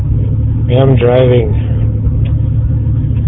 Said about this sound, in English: You sound like you're on the road.